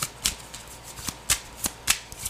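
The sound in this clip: Tarot cards are shuffled by hand during a tarot reading, giving soft papery riffling with a series of crisp flicks and slaps at an uneven rhythm, fairly quiet and with no talk.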